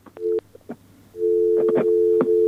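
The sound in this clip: Busy tone on a phone line after a listener's call drops: a short steady tone burst, a brief gap, then a longer unbroken tone with a few crackles over it.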